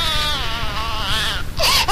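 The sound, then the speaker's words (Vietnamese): A child cries from the upstairs floor of a house, a sustained, wavering high wail that holds steady before a brief break and a sharper, rising cry at the end. “có tiếng trẻ con khóc vọng xuống từ tầng 2”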